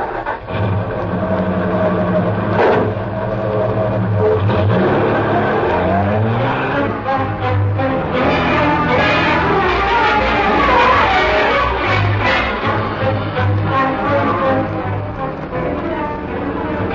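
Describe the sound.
A sedan's engine runs and pulls away, a loud, steady mechanical drone whose engine note climbs partway through, with no voices over it.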